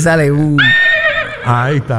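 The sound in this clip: Horse neighing, played as a sound effect to celebrate champion foals: a loud, quavering whinny in a few linked bursts that climbs high and then drops back to a lower, shaky tone.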